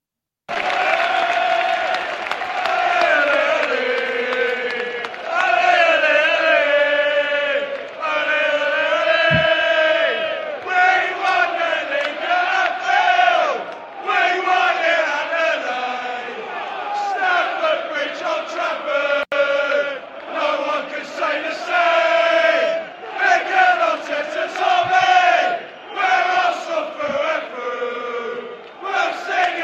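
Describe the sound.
Away football supporters chant in a stadium around 55 to 60 minutes into a match, a loud, sustained sung chant from many voices that rolls on without a break and swells in repeated phrases.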